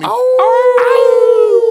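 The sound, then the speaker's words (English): People howling together like wolves: a loud, sustained voiced howl held at a steady pitch, with a few sharper yelping onsets stacked near the start. “Look, we did the howl, and then my mic went out.”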